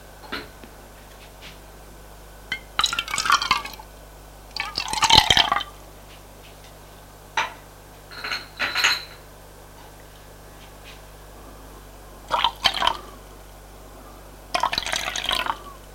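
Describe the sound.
Tea and coffee being poured at a breakfast table: several short bursts of liquid filling cups, each a brief splashing trickle, separated by quiet pauses, with no talk.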